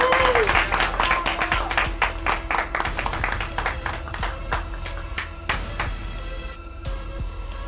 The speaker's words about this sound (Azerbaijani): Alqışlayaq.